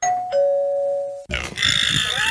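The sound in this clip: Doorbell ding-dong sound effect, a clear two-note electronic chime, higher tone then lower, that rings for about a second before cutting to a louder, rough, noisy burst.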